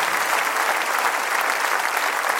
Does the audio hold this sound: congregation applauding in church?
yes